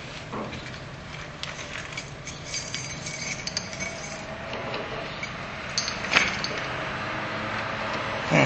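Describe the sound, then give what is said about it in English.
Keys on a bunch jingle while being tried one by one in a door lock, giving faint, scattered metallic clinks and ticks, with a couple of sharper clicks near the end. “Wrong key. Unfortunately, my keys are not labeled, so I have to fiddle with them to find the right one.”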